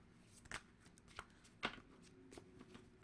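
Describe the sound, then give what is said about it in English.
A deck of African tarot cards is handled and shuffled, giving soft papery rustling with a few sharper slaps and riffles. The sound is quiet overall, and the louder snaps are spaced irregularly. “Let's get some cards. I'm going to be using the African tarot cards.”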